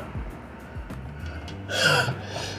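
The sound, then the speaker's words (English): A single sneeze bursts out near the end as a short, sharp, noisy blast, after a few faint breathy snorts and sniffs. “every time I'm on the podcast, man, I'm sneezing and blowing my nose.”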